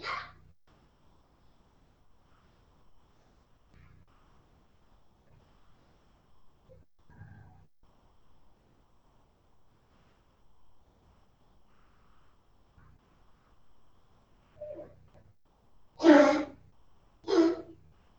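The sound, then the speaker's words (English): A small dog coughing: faint snorts and breaths scattered through near-silence, then two louder, harsh coughing bursts close together at the end. “it's our little dog coughing. You can hear that.”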